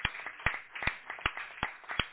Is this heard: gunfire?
no